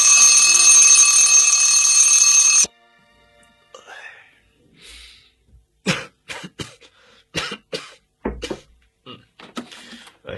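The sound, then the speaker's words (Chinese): Alarm clock ringing: a loud, steady electronic ring sounds for under three seconds and then stops abruptly. Quiet rustling follows, then a series of short coughs and throat-clearing bursts. “我听到闹钟响”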